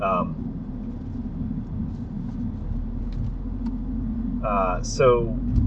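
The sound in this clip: A car being driven, heard from inside: a steady low engine and road rumble runs throughout, with brief talking at the start and near the end.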